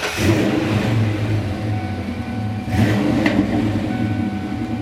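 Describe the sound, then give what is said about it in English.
A Cobra Mustang engine rumbles through a Flowmaster exhaust, a deep, steady idle with one strong rev swelling about midway before settling back to the low drone. “That's the sweet sound of Flowmaster.”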